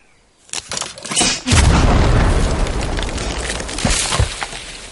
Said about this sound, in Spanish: se aleja unos cuantos metros y activa un disparador con cable.